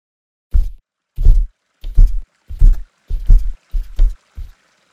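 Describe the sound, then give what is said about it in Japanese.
Warm water sloshes and pours into a foot bath in seven short, separate bursts. Each is a low, soft splash, spaced at a fairly even rhythm, with no voices. “暑すぎず、ぬるすぎない、適温のお湯で、ご主人様のおみ足にたまった疲れを、じんわりと和らげさせていただきます。”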